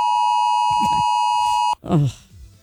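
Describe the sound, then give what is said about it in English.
A 2 o'clock alarm sounds as a steady, loud electronic tone that holds for under two seconds and then cuts off abruptly, with voices talking over it and after it. “Oh, that was that 2 o'clock alarm. Thing.”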